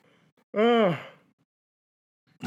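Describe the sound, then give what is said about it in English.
A single drawn-out voiced yawn, loud, with its pitch rising and then falling, framed by faint breathing before and after. “I can't quit yawning.”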